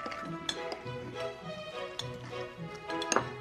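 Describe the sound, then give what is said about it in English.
A knife cuts ptarmigan intestines, from a wild Arctic bird, into tiny pieces. A few sharp, separate cutting taps sound over a steady tonal background. “You want to remove its intestines and cut them into tiny little pieces. This should be enough. Okay. You take two and then you cut them up like this.”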